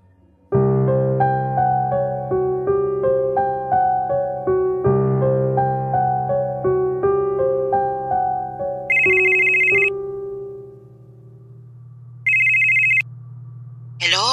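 A telephone rings for an incoming call during lockdown: two short bursts of bright, high electronic ringing. They follow a long stretch of soft, steady melodic notes, and no voices are heard.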